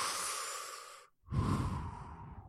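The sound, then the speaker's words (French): A deep breath: a long, airy rush of air, a brief silent pause, then a louder and fuller breathy sound that tapers off. No talking is heard. “On prend une grande bouffée d'air comme ça”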